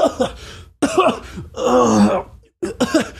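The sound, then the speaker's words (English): A voice imitates sick, starving men in a camp groaning and coughing, producing a few rough, strained bursts of moans and hacking coughs separated by short pauses. “Stannis's men, they're like lined up for food and they're shivering and coughing. And you can hear the ambient sounds of the camp are just like,”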